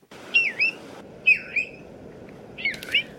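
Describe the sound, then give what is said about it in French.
A bristle-thighed curlew calls three times, each call a pair of clear, high whistled notes, with short gaps between them over a faint steady hiss. “Alors il s'agit du courlis d'Alaska avec son long bec fin et incurvé et son plumage caramel et tacheté”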